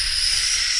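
Air hissing out as if from something deflating: a steady, fairly loud breathy hiss that holds constant without breaks.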